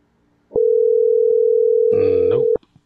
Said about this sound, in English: who's dialing? Are you dialing